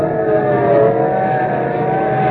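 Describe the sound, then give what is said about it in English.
Police cars speeding past, heard as a loud, continuous engine roar with a steady rumbling tone and no clear rise or fall, alone without voices. “Look, police cars, and are they rolling? And we better start hopping. They're not slowing down for anything.”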